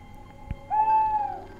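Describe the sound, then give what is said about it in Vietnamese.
Owl screeching loudly by a bamboo clump behind a house: one sustained, steady, mid-pitched wailing cry lasting under a second, preceded by a brief low thump. “con cú mèo cứ như thi gan, lại càng chổng đít lên, chĩa vào nhà mà gào lên váng óc.”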